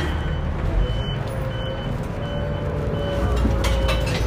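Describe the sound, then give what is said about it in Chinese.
Inside a moving bus, a steady low rumble of engine and road noise carries on without a break, with a faint tonal whine drifting above it. “车辆行驶中，请紧握扶手。”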